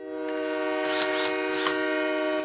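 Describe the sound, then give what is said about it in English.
A train horn blares in a steady, layered chord of sustained tones from start to finish, with a few breathy bursts of hiss rising over it, loud and continuous as the train comes on without slowing. “The Magno train don't seem to be slowing up none.”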